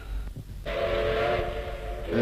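A steam train whistle beside an armored train gives a steady, loud, multi-toned blast with a hissing steam edge. It begins after a short low rumbling lead-in and holds to the end.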